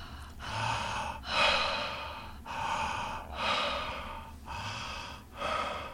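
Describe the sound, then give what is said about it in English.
Connected circular breathing, with inhales and exhales flowing into each other without any pause between them. Breathy, airy strokes rise and fall in a steady rhythm across about three in-and-out cycles, with no talking. “let's begin to connect the breath so there's no pause between the inhale and the exhale of our breath. Going in a circular manner.”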